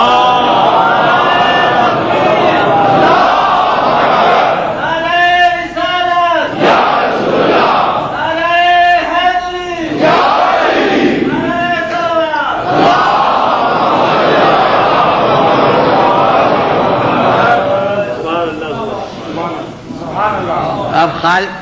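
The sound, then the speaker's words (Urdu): A large crowd at a religious gathering chanting slogans in unison, loud voiced bursts that swell in a few repeated waves over continuous crowd noise. “اب سلسلے سے نعرے لگا دیجیے جی.”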